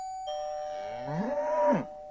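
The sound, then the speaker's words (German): A cow moos in one long, drawn-out low call that swells louder near its end and then cuts off sharply. A steady held tone sounds beneath it throughout. “eine Kuh kommt zu Besuch”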